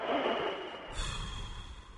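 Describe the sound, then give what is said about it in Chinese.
Someone takes a deep breath in during an abdominal breathing exercise. A long, airy inhalation is followed by a quieter, lower breathy rush, with no talking. “你即马深深的吸一口气”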